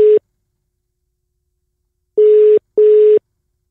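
Ringback tone of an outgoing phone call not yet answered: a steady mid-pitched electronic tone, the tail of one pulse at the start, then after a two-second pause a pair of short pulses close together.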